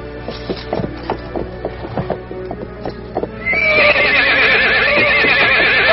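A horse stamps restlessly with a string of uneven hoof thuds, then breaks into a long, loud, wavering whinny that carries to the end.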